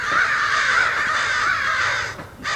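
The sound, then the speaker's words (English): A murder of crows cawing at the top of a tree, forming a dense chorus of harsh, overlapping caws that stays loud and unbroken for most of the stretch, then dips briefly near the end. “what you're hearing, if you're listening to this online, is a murder of crows on the top of the tree.”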